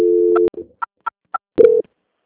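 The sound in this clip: Telephone line tones during a call transfer: a steady tone ends in a click, then three short evenly spaced beeps, then a brief louder tone with a click, and the line goes silent.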